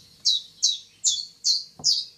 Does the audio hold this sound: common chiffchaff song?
yes